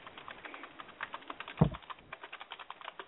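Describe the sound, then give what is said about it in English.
Rapid typing on a computer keyboard, many crisp clicky keystrokes in an uneven, continuous patter, with one heavier thump partway through and no talking. “punishing your keyboard”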